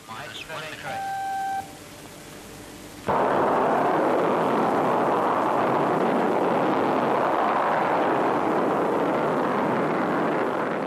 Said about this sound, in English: This is the sound of the actual test launch of the Europa 4 rocket in May 1966.